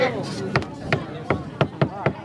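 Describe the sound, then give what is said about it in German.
Hammer blows drive nails into a coffin lid to shut it: six sharp, loud knocks come at uneven intervals, with talking early on. “Also nageln die Angehörigen die Särge schnell wieder zu.”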